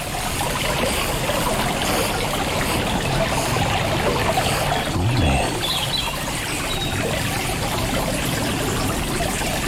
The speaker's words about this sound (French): clapotis de l'eau. Vous invite à une pause.